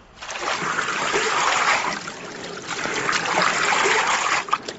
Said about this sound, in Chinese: 将浸泡了十个小时的豌豆磨浆